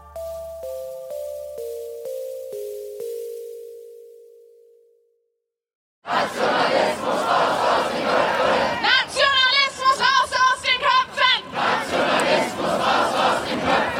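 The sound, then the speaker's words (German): Protesters at a demonstration in Berlin chant loudly in unison, a crowd's voices rising and falling in a steady rhythmic beat. The chanting follows a stepped, falling run of electronic tones and a brief silence. “Dieser Sprechchor war am Montag in Berlin zu hören.”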